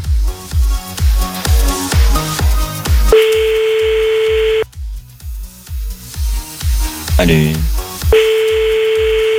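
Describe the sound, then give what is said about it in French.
A phone call is dialled during a radio prank-call segment, with a steady pulsing beat of hold music on the line. The music is broken twice by long, even line tones. “On y va, c'est parti, nouveau numéro. Dès que t'entends plus la musique, tu dis allô.”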